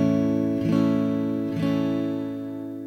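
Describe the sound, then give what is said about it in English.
A major chord on an acoustic guitar, fingered at the second fret, strummed twice at an even pace. Each strum sets off a bright, full ring that fades slowly, with no voices. “This is how the A chord sounds.”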